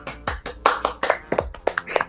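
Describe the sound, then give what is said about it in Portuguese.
Scattered hand claps, loose and irregular rather than a full crowd's applause, with sharp slaps falling at uneven intervals throughout. “Bem, palmas.”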